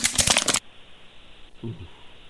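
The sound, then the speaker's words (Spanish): A deck of playing cards being shuffled gives a quick, dense burst of crisp rattling that lasts about half a second. Near silence follows, with a faint voice murmuring briefly afterward. “Es una, emparejando unas cartas. Es embarajando unas cartas, Choco. Barajando cartas.”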